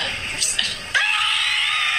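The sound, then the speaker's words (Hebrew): A woman screams, a loud, steady, high-pitched shriek that holds for about a second after a brief stretch of muffled sound. “למה היא צורחת? אני לא מבין את זה.”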